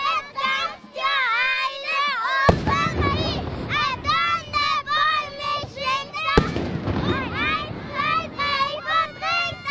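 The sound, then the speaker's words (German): Two heavy ceremonial gun salute shots crack out on the Basel Rhine bank opposite the Münster, where the crowd awaits the raft carrying the dancing wild man. The booming reports stand several seconds apart over constant excited children's voices and chatter. “Die Böllerschüsse sind schon von weitem zu hören. Die Kinder werden immer wie nervöser da und können es kaum erwarten, bis das Floss kommt mit dem tanzenden wilden Mann.”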